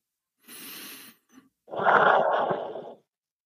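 A deep breath taken during a guided emotional exercise: a soft, airy inhale, a brief pause, then a longer and louder breathy exhale, with no talking.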